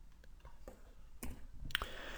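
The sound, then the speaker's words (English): A few sharp, faint mouse clicks land on the OK button of a computer dialog box, set against a low, quiet background. “But once you're done, click on OK.”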